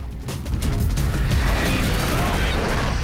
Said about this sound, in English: As the truck explodes into a massive ball of flames, Beck calmly walks away from it.